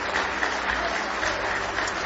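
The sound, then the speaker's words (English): An audience claps hands in praise during a worship service: dense, steady applause from many people, sustained at an even level throughout. “Give the Lord a big hand clap of praise tonight.”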